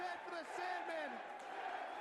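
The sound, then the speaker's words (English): Wrestling crowd chanting for The Sandman at a 1994 November to Remember show, a steady dense roar of many voices with chant-like swells, under talk throughout. “Now the crowd chanting for Sandman.”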